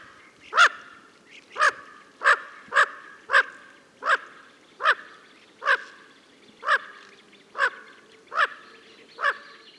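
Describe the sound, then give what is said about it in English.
Small bufflehead ducks, winter visitors to local waters, give a long series of evenly spaced, nasal chattering calls. Each call is a short, fairly loud burst, repeating at a steady rhythm over quiet background. “That was the chatter and calling of bufflehead ducks.”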